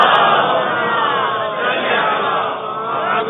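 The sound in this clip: Massed voices chant a religious salutation slogan to Imam Hussain in answer to a call at a religious gathering, a loud, sustained unison roar of many people that holds steady throughout.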